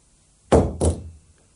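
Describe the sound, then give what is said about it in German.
A pistol dropped on the floor lands as two quick, heavy thuds in close succession, loud against near silence. “Lass die Pistole fallen.”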